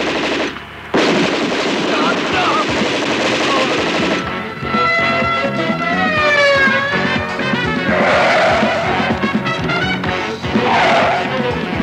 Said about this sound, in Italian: Avanti campione, spara! Quell'ico de ferro non sbaglia un colpo.